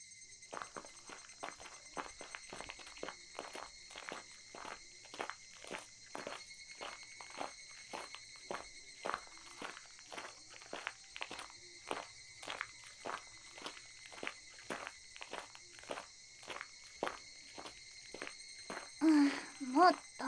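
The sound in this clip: Footsteps of people walking toward the swings: many soft, evenly paced steps in a steady rhythm over a constant high-pitched background drone, growing slightly louder near the end.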